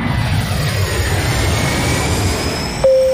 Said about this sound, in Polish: Witamy na pokładzie. Uprzejmie informujemy o starcie.